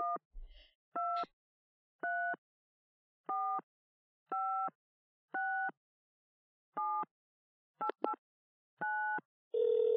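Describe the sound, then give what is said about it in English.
Telephone dialing a number: about nine evenly spaced electronic beeps at a steady rhythm, then a longer continuous tone at the end, fairly faint and with no voices. “They purposefully dial this number this time. Yeah. Call it.”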